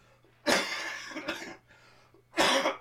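Coughing from a person with a cold: a few harsh, loud bursts, the first two close together and the last after a brief pause, over a faint low steady hum.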